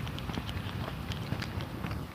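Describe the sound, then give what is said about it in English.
Metronome ticking at 120 beats per minute during a walk, a steady pulse of soft clicks over a dense, noisy background. “The rhythm of the walk. I have the metronome going, so it's 120 beats.”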